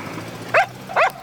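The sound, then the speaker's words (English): A small terrier in the street barks twice at a departing van, giving two sharp, high yaps with a short pause between them. “The little terrier runs into the street and barks at the departing van.”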